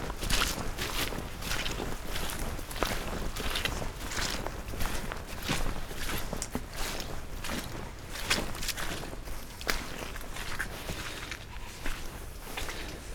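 Footsteps walk steadily through woodland in the Sussex Weald toward boggy ground, a regular run of crunching, shuffling steps over a continuous broad rustling background.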